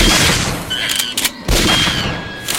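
Rifle gunfire in a video game: a few loud, sharp shots separated by short gaps, set against continuous game noise and ringing tonal effects.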